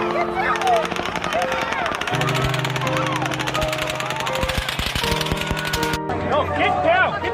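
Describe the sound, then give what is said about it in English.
Rapid automatic gunfire from a shooting at an outdoor concert on the Las Vegas Strip, with shots fired from a high-rise hotel. The bursts crackle densely and continuously throughout, mixed with people talking and shouting. “Those are shots!”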